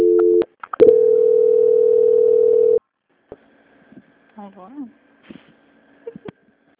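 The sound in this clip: A steady telephone line tone during a call transfer, sounding loud and unbroken apart from one short gap, then giving way to a near-silent line with a few faint clicks.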